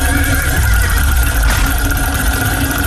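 A stallion's neigh sound effect, used in a radio game, blares as one loud, sustained whinny lasting about three seconds, with no speech.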